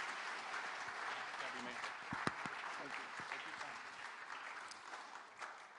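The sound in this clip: An audience applauds to welcome guest speaker John Easter, with steady, continuous clapping from a crowd that stays fairly even and soft throughout.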